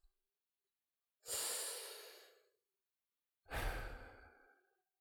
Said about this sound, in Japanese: もう一回深呼吸しようか。